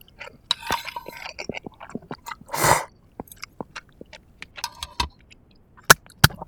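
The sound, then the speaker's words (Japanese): Someone eating a late-night home-cooked meal: scattered light clinks and clicks of utensils and soft chewing, with a brief louder rustling burst midway and a few sharp taps toward the end. “ごちそうさまでした。めっちゃ美味しかった。ああ、一気に食べちゃった。”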